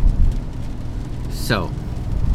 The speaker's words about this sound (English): And today I'm driving the Deliverator in the rain.